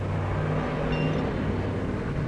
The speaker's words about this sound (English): Okay, I had to wait for that truck to come by.